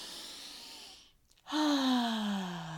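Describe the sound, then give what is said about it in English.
One deep breath is faint: a soft airy inhale, a brief pause, then a longer voiced exhale like a sigh that drifts slightly lower in pitch. “If we take a deep breath together, right?”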